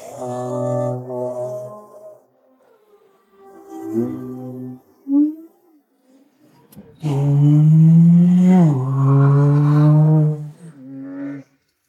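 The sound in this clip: A Porsche sports car with Sport Chrono launch control accelerates hard: a steady engine drone is held, then a loud surge of rising revs follows, broken by a brief dip like a gear change.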